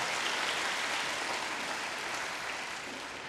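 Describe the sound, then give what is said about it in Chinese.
Applause from a church audience at a worship service, a dense, even wash of clapping that holds steady throughout and eases slightly at the very end. “俾啲掌声自己好唔好啊？”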